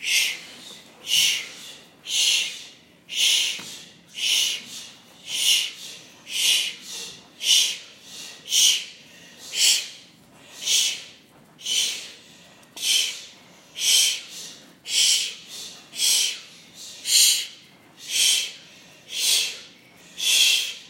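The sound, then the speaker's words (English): Deep rhythmic breathing from a yoga class breath-work exercise: many forceful, hissing breaths in a steady, even rhythm of about one per second, each rising and falling in the same way, with no talking. “Let all the air out. You're just letting yourself unfold. The only way to really uncoil and unfold is to get into this deep breath work. Here we go. 20 times.”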